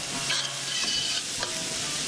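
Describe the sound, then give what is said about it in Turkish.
Chopped onion and garlic sizzle in butter in a pot, a continuous soft frying hiss with a few scraping stirring sounds, no talk over it. “Doğradıktan sonra soğanı, sarımsağı tenceremize alıyoruz. Tereyağı ile beraber kavuruyoruz.”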